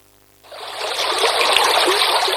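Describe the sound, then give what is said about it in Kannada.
Rainwater flows fast in a dense rushing hiss that starts abruptly after a moment of near silence, swells slightly, and then holds steady and fairly loud to the end. “ಮಳೆ ಬಂದಾಗ ನೀರು ವೇಗವಾಗಿ ಹರಿದು ಹೋದರೆ ಅದು ಕೇವಲ ನೀರಲ್ಲ, ಜೊತೆಗೆ ಭೂಮಿಯ ಫಲವತ್ತಾದ ಮಣ್ಣನ್ನು ಕೊಚ್ಚಿಕೊಂಡು ಹೋಗುತ್ತದೆ.”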